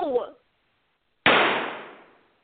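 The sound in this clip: A single gunshot in a staged murder-mystery drama: one sharp, loud crack with a long fading tail, following a brief burst of voice.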